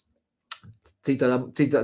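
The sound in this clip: A UWELL Havok V1 vape device gives a few short, soft clicks as its button is pressed. A person then talks.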